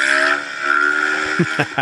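A vehicle engine revs as it pulls a wheelie: a steady, buzzing drone that ends in a few sharp bursts.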